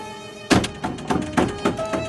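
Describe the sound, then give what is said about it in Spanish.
Knocking on a closed room door in a sewing workshop: several dull, hollow thuds at an uneven pace over a faint, steady tonal hum. “está ante la puerta cerrada de la habitación. La golpea.”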